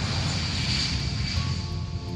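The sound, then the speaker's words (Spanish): An airplane engine roars as the plane takes off, in the setting of a Madrid–Kyiv flight: a faint, steady roar with a thin, high whine held throughout and no voices. “Al desembre, 4 mesos després de la sala Cubelles, puja un avió.”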